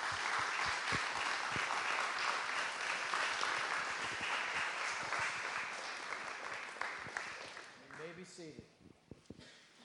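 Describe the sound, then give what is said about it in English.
An audience applauds new church members, with steady, dense clapping that holds strong and then thins out near the end into a few scattered last claps. “I just want you to give a hand to those and to welcome those as new members”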